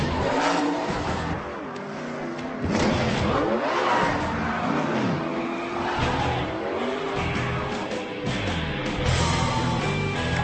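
Race car engines roar and rev without a break during a race, a dense, loud rumble with surging, rising and falling whines.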